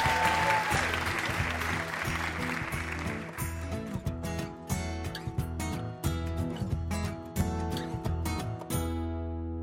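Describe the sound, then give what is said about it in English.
Audience applause for quiz show contestants, a dense, steady roar of clapping that gives way after a few seconds to rhythmic, tonal show music, which carries on loudly to the end. “Another hand for our first two contestants, everybody.”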